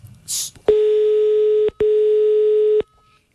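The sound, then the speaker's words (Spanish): A telephone ringing tone plays while a call is placed: two steady, flat, mid-pitched tones, each lasting about a second and split by a brief gap. They are loud and stand alone before falling silent. “Llamando.”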